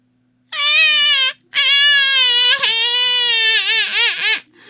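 An infant cries loudly in wailing bursts. A short cry is followed by a long, wavering one that ends in sobbing dips of pitch.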